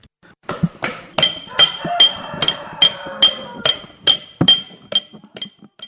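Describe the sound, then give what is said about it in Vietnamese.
Hand engraving of silver in a traditional family silversmithing workshop in Bau Truc village, Ninh Phuoc, Khanh Hoa: many crisp, ringing metallic taps struck in a steady, even rhythm. “Đó là tiếng chạm khắc bạc”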